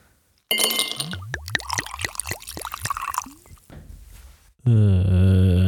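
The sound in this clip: A small glass bottle of Macallan whisky, long kept in a cellar, is handled, giving a quick run of about eight clinking, liquid-like glugging pulses over faint noise, then a voice starts speaking loudly.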